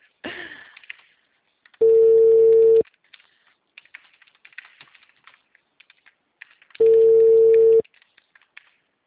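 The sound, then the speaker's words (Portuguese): A telephone ringback tone heard from the caller's end: two long, steady one-second tones separated by a few seconds of near-silence. Faint scattered clicks run between the tones. “Tá chamando. Alô? Alô? O número está ocupado.”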